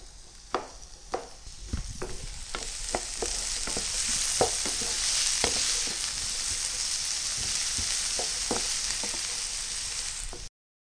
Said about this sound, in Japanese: じりじり音がしてきたら、そのまま火が強いと焦げやすいですから、中火にしてじっくり炒めていってくださいね。